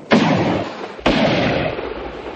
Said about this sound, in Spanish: dispara al aire